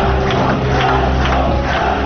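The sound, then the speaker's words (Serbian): Crowd cheering and chanting from delegates packed into a hall at a social democratic party congress: a loud, dense roar with rhythmic swells of chanting recurring about every half second. “Nakon što se pojavio u sali prepunoj delegatima, prolomio se aplauz i skandiranje Krivokapiću”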